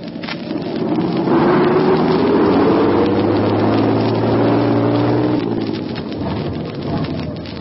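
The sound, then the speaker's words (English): Vehicle engine revving hard as it tries to plow through a snow drift on a road, a loud, dense roar with a rising strained tone that eases off toward the end. “Think you can plow through it, driver? We will try, Sergeant. Okay, give it a gas, and let's hit it.”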